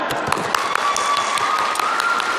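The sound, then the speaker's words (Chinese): Audience applause at a celebratory stage event, with dense, steady clapping that stays at a constant level for the whole stretch. Scattered sharper claps rise above the wash. “给于氏鼓鼓掌。”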